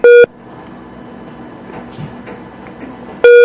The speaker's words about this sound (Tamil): உங்களுக்கு வேறு அழைப்பு வருகின்றது போல் தெரிகின்றது. துண்டிக்கப்பட்டுவிட்டது உங்களோட இணைப்பு.